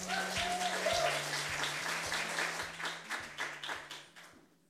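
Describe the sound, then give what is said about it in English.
Audience applause greeting a speaker onto the stage at an evening event: thick clapping that swells early, then thins into scattered claps and fades to silence, with faint low pulses underneath. “Please put your hands together and welcome to the stage, Saint Ananda.”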